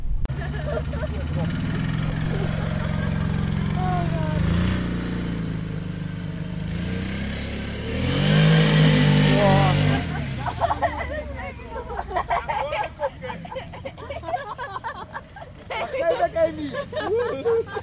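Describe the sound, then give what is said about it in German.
Quad bikes ride around at a children's event, their engines droning and revving loudly over a steady hum of crowd babble, then giving way to a rougher, crackling run of engine noise with uneven surges. “Vor Ort waren, wie man hört, die Quad-Kinder. Die Quad-Kinder sind ein Netzwerk aus europäischen Quad-Fahrern, die auf Anfrage vorbeikommen, um Kindern ein paar Runden mit auf ihrem Quad zu ermöglichen.”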